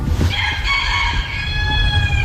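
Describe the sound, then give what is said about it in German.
A rooster crows in one long, drawn-out call that holds steady and fades near the end, set over a constant low rumble. “der Italo-Western-Hahn, der jetzt seinen Einsatz hat”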